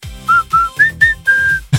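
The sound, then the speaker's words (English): A person whistles a family summoning call, a short clear tune of five notes. The middle notes rise higher and the final note is drawn out longer before a soft thump. “don't make me laugh because if I smile, I can't whistle, but it sounded like,”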